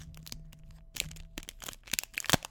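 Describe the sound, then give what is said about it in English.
The seal of an Everfest pack tears open right at a microphone in a string of faint, crisp crinkles and crackles that sharpen into louder snaps near the end. “I'm gonna tear it by the microphone so you can all hear that crisp, nice Everfest pack opening seal of breaking.”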